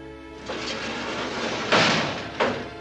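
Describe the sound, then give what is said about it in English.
A prison cell door sliding open: a rough, rumbling scrape starts after a brief pause, followed by two louder knocks as the door travels and stops. “The cell door slides open.”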